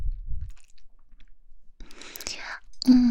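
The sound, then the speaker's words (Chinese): A bacon and cheese sandwich is chewed with soft, crisp crunching in short bursts between quiet pauses. A voice is heard briefly at the end. “你再试试三明治啊，里面啊可是加了培根和芝士呢。吃一口”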